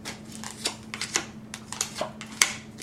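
Tarot cards being shuffled and drawn make a series of soft, irregular flicks and snaps, quiet and crisp, with no voices.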